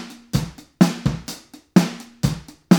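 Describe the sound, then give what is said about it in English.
Uncompressed drum beat cycling through kick, hi-hat, snare and hi-hat. Crisp, separate hits decay quickly into short gaps, with the hi-hat sitting low in a steady, even pattern and no voices. “This is with no compression.”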